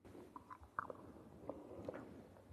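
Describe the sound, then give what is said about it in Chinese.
Crunchy biting and chewing of something taken into the mouth together with a copper coin: a few sharp, crisp cracks stand out above soft, quiet mastication sounds. “咀嚼不到一分钟就听见了几声脆响。 啊，对了， 咬烂了啊啊！你再咬一下啊， 这样断了两片了”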